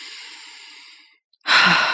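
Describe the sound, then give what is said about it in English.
A deep breath drawn in through the nose as a calming exercise: a steady airy inhale of about a second, a short pause, then a louder breathy exhale out through the mouth. “take a deep breath, just in through the nose”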